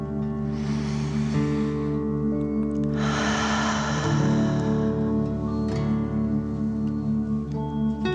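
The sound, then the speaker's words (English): A deep breath in and a long breath out during a relaxation exercise: two soft, airy rushes of air over a steady, sustained musical drone, with no talk. “Okay, deep breath in and out.”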